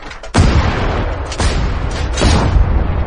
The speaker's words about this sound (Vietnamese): Ba phát súng.